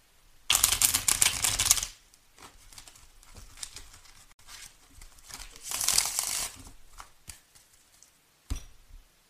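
Tarot cards are shuffled and drawn for a reading: quiet, crisp riffling bursts, one strong at the start and another midway, with lighter card snaps and slides in between.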